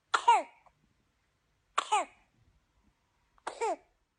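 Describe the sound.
A month-old baby coughs in three evenly spaced bouts, each a short harsh burst followed by a voiced, falling squeak, with silence between.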